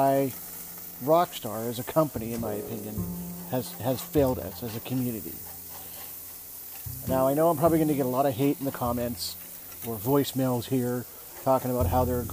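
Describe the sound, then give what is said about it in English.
Food sizzles on a barbecue, a steady, soft, hissing crackle that runs beneath a man talking continuously throughout. “that noise you're hearing, I'm just barbecuing, don't mind me.”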